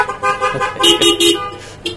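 Car horns honk together in loud, overlapping blasts. Steady tones hold through most of the two seconds, with brief dips between the bursts and no talk.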